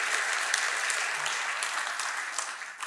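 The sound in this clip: Audience applause in a church: a dense, steady wash of clapping that holds at an even level for the whole stretch, with no voices over it.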